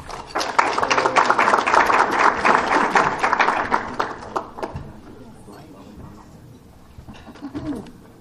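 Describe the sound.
Dense audience applause welcoming a deacon to speak. It is loud and steady for about four seconds, then thins out and fades.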